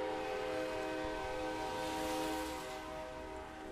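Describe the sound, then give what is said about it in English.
A Norfolk Southern train whistle blows as one long, steady, many-toned note that holds throughout and fades slightly near the end, with no voices. “You can hear the train whistle blowing in the background there.”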